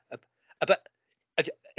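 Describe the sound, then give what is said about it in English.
Hiccups from a person: a few short, voiced gulps separated by silence, each a quick burst of throaty sound with no other talk. “Oh, I thought you were trying to say something, but you're just hiccuping. No, I've got hiccups, so I do beg your pardon.”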